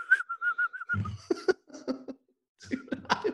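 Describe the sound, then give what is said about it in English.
A person imitates film prisoners whistling to coax a dog, with a short, rapidly warbling whistle. It breaks off into a few short voiced bursts and breathy noises, then more scattered bursts after a pause. “Pirates of the Caribbean, the whistling prisoners trying to get the key from the dog.”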